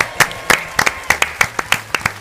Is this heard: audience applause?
yes